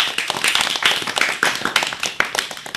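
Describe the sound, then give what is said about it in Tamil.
An audience claps for students at a school event, many hands striking in quick, irregular bursts, loud and crisp without any voices. “அனைவரும் கரவொலி எழுப்பி அவர்களுக்கு நமது வாழ்த்துக்களை தெரிவிப்போம்.”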